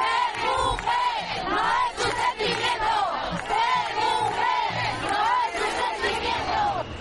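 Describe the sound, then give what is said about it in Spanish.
A crowd chants at a women's day demonstration in the glorieta de Atocha, Madrid, many loud voices shouting rhythmic, repeating calls without pause. “Os contamos a pie de manifestación lo que nos hemos encontrado esta tarde en la glorieta de Atocha.”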